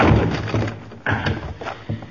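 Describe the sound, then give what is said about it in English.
A door is forced open with a shoulder: a few heavy, dull thuds land one after another, separated by short pauses. “Now put your shoulder to this door. Now.”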